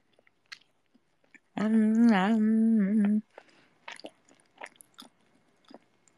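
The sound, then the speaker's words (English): A person eating and chewing food. A sustained hummed vocal sound comes first, then a series of faint, irregular wet chewing clicks and smacks. “let me finish eating my food. Nom nom.”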